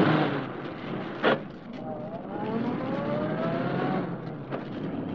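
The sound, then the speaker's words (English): A car drives off in a hurry, its engine note climbing steadily over continuous road rumble, with a short knock early on. “Car out front? Yes, sir. I had him bring it around. I'll drive. Okay, and hurry.”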